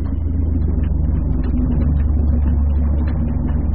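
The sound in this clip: An aircraft engine throttled back gives a steady, low droning rumble that holds an even level and pitch throughout, with no other sounds above it.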